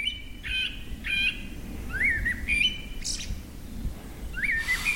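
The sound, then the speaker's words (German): Forest birds singing in the evening in a wood: several clear, high chirping and whistled phrases repeat over a steady low background rumble, with one brief harsher call among them. “Eine Runde mit Abendkonzert der Waldvögel.”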